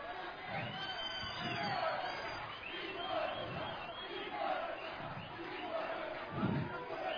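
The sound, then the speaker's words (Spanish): A concert crowd cheers and applauds for the girls on stage, a steady roar of voices with scattered shouts and whoops, fairly faint and continuous throughout. “aplauso a las chicas. Un fuerte aplauso.”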